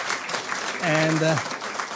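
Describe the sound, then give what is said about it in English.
Audience applause welcoming someone back at a university gathering. The clapping is steady and even, and a short voiced call briefly rises above it in the middle. “Let's give you another applause to welcome you back.”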